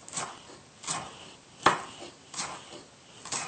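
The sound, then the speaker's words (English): A knife dicing food small on a cutting board gives five slow, evenly spaced chopping strikes, each a short dull knock, the middle one sharper and louder than the rest. “very small. Like diced, thinly diced.”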